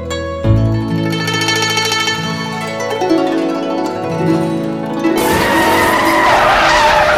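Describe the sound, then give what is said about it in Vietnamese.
A luxurious off-road vehicle skids to a stop outside a house at night. Its tires squeal loudly and at length, the tone sliding steadily lower, before giving way to a harsh, noisy rush. “Tuy trời rất tối nhưng họ vẫn nhìn thấy một chiếc xe địa hình rất hào hoa, sang trọng đang dừng trước cửa nhà.”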